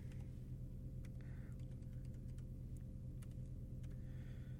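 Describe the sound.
A password is typed on a computer keyboard in a radio studio, faint scattered key clicks tapping irregularly over a steady low hum.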